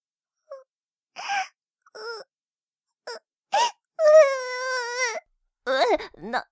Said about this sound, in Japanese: 泣かないで